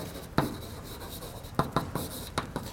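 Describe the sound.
Writing on a board: a handful of sharp, scratchy strokes, sparse and irregular, each a brief loud scrape with quiet gaps between.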